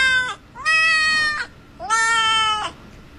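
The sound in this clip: Three cat meows played from a cat-language translator app: the first is cut off at the start, then two long, loud, tonal meows follow, separated by short gaps.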